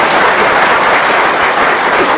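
Dense, steady applause from an audience at a live comedy stage performance, a continuous wash of clapping that holds at a constant level throughout with no voices.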